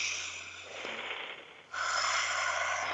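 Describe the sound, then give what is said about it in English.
A group takes a deep breath together, a soft, breathy rush of air in two phases, the second fuller and louder, heard alone and fairly faint. “Let's take one more collective breath together.”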